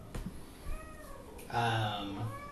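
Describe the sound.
A person imitates a cat with a drawn-out, mid-pitched meowing cry that follows quieter talk.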